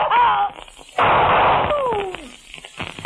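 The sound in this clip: In a radio drama, a single loud gunshot blasts out between stretches of speech, a sudden broad burst that lingers briefly before the voices resume.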